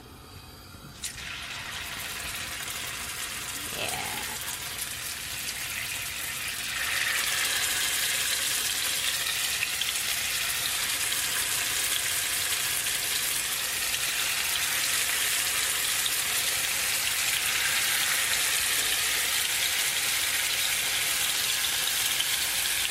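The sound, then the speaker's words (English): Tofu pieces dropped into hot oil set off a dense, steady frying sizzle. It begins about a second in and grows louder partway through as more pieces go in. No one talks over it. “All right, my oil's nice and hot, so let me start dropping these in.”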